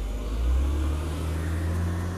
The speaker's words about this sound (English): Somebody just drove by.